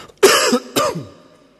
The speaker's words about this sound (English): I'm sorry about coughing straight into this microphone, I can't avoid it.